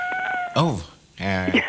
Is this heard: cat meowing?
yes